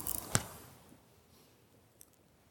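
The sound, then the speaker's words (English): Scissors cutting the last lock of hair during a monastic ordination: one sharp, faint snip, then a tiny click a moment later, with near silence between. “And so we'll do this so that we can then remove the last lock of hair.”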